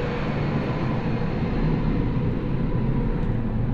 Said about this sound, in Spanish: espérate, espérate, que va pasando un avión y no te...